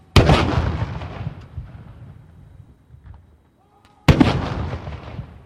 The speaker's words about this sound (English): was given a ceremonial welcome with a gun salute when he arrived at Parliament House on Thursday morning